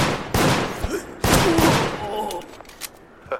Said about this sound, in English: I don't know, getting shot at, though!